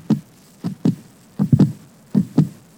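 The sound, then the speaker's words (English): Heartbeat sound effect from a Halloween soundboard: low, muffled thumps arriving in lub-dub pairs, a few beats in a steady rhythm, heard alone without any talking. “That's a heartbeat.”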